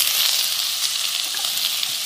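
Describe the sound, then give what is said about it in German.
Steady, bright sizzling of broccoli, bell pepper, onion and garlic frying in a pan, continuous and even throughout with no talking. “Brokkoli und Paprika schön anbraten. Und dann Zwiebel und nach so 1-2 Minuten Zwiebel und Knoblauch hinterher.”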